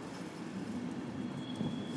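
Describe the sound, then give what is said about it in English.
Low rumble of a train pulling out of Cologne station: a faint, steady roar with a thin high whine above it and no distinct clatter. “The train departing.”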